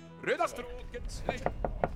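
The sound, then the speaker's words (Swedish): Knocking on the door of an old restaurant that opened in the 1720s: a brief spoken phrase, then four sharp, evenly spaced knocks. “Knacka på här lite. Knack, knack. Ta i dörren.”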